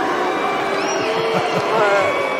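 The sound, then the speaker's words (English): A crowd boos, with long low drawn-out vocal jeers rising and falling in a few swells over a steady murmur of many voices. “Hang on. What are they booing? Well, they're booing science.”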